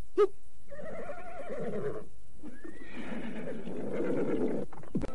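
A horse neighs loudly: a long, wavering whinny, a short pause, then a second extended, shaky neigh that trails off.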